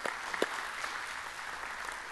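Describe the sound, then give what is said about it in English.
A church audience applauding as a new campus goes live. The dense clapping stays fairly faint and even, with a few sharper individual claps near the start. “we just went live at our Tupelo campus. Make some noise for those guys.”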